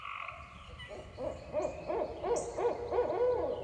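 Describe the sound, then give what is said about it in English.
An owl hoots in a quick series of soft, rounded calls, each rising and falling in pitch, repeating in a steady rhythm over faint background noise. “beautiful owl. I don't know if it's multiple owls or one, but I just love this sound.”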